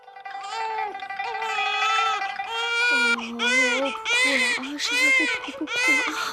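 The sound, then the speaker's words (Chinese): A hungry baby cries in high, strained wails, a few long bursts that break into shorter sobbing cries, loud and uneven in pitch. “不哭啊！阿妈知道你饿了，可是阿妈奶水少啊，这可真是愁死了。好，不哭。”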